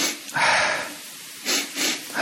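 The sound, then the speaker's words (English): Audible breathing in an exercise of two inhales and one exhale: one long airy breath, then a few shorter, sharper sniff-like breaths. No one speaks. “So do it different, in a different way, like two inhales and one exhale.”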